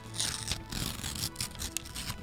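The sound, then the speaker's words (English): A paper envelope is ripped open gently at an award reveal, giving faint, crackly tearing bursts spread across the moment, with one brief sharper snap near the end. “Delicate rip there.”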